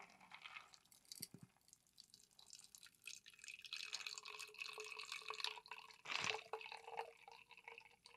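Liquid drips and trickles into a small milk jug as a faint, uneven run of many small drops and splashes, with one brief louder burst near the end.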